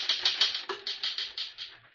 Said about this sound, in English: Finish typing it and I'll sign it.